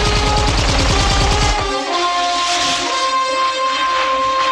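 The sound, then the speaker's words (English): Guards in a film fire guns down a mountain slope at night, a rapid, loud, machine-gun-like burst of evenly spaced shots that stops after under two seconds, followed by sustained steady high tones. “Blofeld's guards turn on a spotlight. They fire as Bond weaves his way down the slope.”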